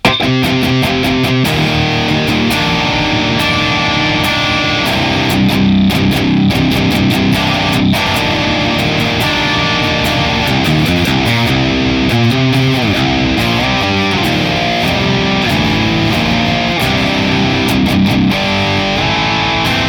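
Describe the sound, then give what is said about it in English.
A heavily distorted electric guitar plays through a Boss IR-200 impulse response loader in stereo, using a Nest Dark FA1 impulse of a Victory Kraken 4x12 cabinet. Fast, tight palm-muted chugs open into loud, sustained riffing and chords that run throughout. “So Nest Dark FA1 Kraken. Our Boss Impulse Response Loader, or IR200, in stereo sounds like this.”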